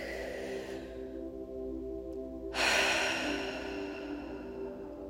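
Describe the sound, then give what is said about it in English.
A slow, deep breath in and out, heard as a soft airy rush that swells partway through over a steady low tonal hum. “Let's take a deep breath here.”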